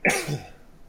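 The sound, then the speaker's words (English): A single sneeze bursts out sharply and loudly at the start, then trails off quickly into low background noise, with no other voices. “Is someone laughing just now? Nope. I think that was a sneeze.”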